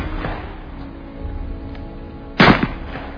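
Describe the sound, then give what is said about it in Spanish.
A couple of rifle shots: two sharp cracks in quick succession, the second weaker, cut through a low, rumbling background. No voices are heard. “cogió su fusil y le disparó un par de tiros entre los omóplatos”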